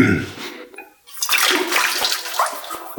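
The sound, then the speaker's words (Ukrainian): Water runs and splashes as hands are rinsed in a kitchen before a meal. It is a steady, rushing flow that breaks off briefly near the middle and then resumes at full strength. “Ганна, Ганночка, бери ручник. Во, сполосніть руки і будемо обідати.”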